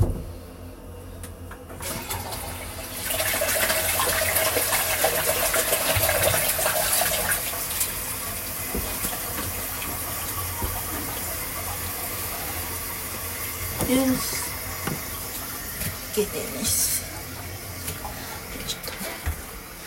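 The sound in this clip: Water is run and poured away. After a quiet start it becomes a steady gushing rush, which eases to a lower, uneven trickle with a few small splashes and clunks toward the end.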